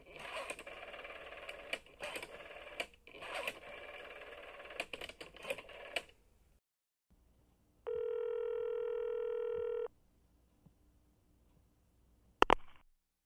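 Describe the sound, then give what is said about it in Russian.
A telephone being dialled: a stretch of scratchy clicking is followed by a steady two-second tone, then a few sharp clicks near the end, all fairly faint. “Я позвонил Крабли.”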